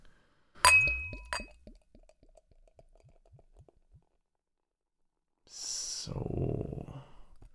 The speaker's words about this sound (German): aber ich schenke mal ein, da kann ich viel schöner reinriechen